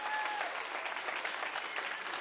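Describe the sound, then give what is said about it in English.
A church audience applauds in praise, a dense, steady patter of many hands clapping throughout, fairly faint and with no pause. “Somebody give God a hand clap of praise.”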